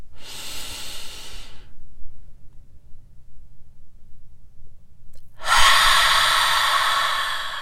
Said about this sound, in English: seal in your intentions with a deep inhalation, open your mouth and let it go.